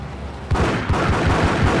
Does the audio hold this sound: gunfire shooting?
yes

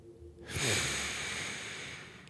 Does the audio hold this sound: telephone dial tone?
no

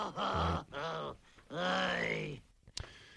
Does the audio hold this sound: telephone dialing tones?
no

